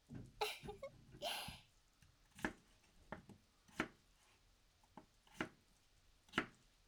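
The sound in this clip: A knife cuts potatoes into slightly larger pieces. A soft rustle comes first, then several crisp, separate chops at an uneven pace, all faint.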